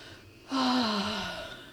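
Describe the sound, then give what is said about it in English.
A single deep breath taken before speaking. It starts abruptly with a breathy rush and holds for about a second, carrying a faint low tone that eases downward as it fades. “Deep breath.”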